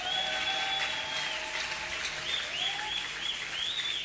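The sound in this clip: Applause from a church audience, a steady dense patter of clapping at moderate level with faint whistle-like tones running through it and no talk over it.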